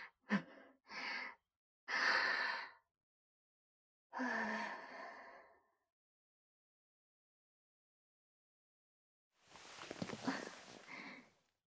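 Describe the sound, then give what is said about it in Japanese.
A nervous person takes deep breaths to calm down in a love hotel room. A quick run of short breaths and sighs is followed by a longer exhale, a long silence, then one final drawn-out breath. “ちょっと一回、深呼吸して落ち着くね。”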